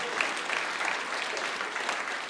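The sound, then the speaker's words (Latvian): A church audience applauding during a worship service, dense continuous clapping that stays at an even, full level throughout. “Амен, да, можно похлопать.”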